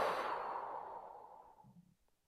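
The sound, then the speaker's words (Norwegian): A long, soft exhalation after a held breath during a guided breathing exercise, a breathy whoosh that slowly fades away over about two seconds. “Vi puster inn og holder pusten. Og ut.”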